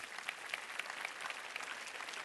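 Quiet audience clapping at a church service before the Lord's Supper and a fundraising appeal. The patter is soft and even, with a few individual claps standing out now and then.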